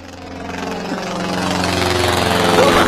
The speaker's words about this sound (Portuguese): Põe de novo o avião, põe o Teco Teco.